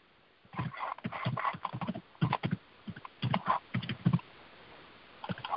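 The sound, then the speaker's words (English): Typing on a computer keyboard: irregular clusters of soft keystrokes that tap out in quick bursts with short pauses between them, fairly faint and heard alone without talk. “Hang on, I'm writing this down. Or typing it.”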